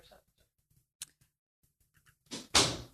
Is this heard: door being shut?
yes